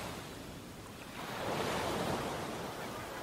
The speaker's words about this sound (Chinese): 听着海浪的声音